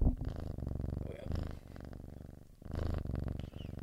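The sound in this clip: A sleepy kitten purrs softly in a low, rhythmic rumble of repeated pulses. The purr swells and eases in a few waves over a few seconds.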